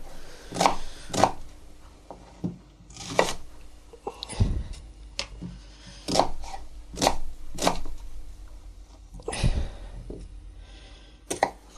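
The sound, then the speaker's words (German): Chopping an onion into bite-sized pieces, not too small: many sharp, irregular cutting strikes, with a couple of heavier low thumps among them and no talk. “Zwiebel in mundgerechte Stücke, nicht zu klein.”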